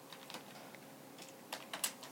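Light clicks of typing on a computer keyboard as an ls -l command is entered, a sparse, irregular run of soft keystrokes with a few sharper taps near the end.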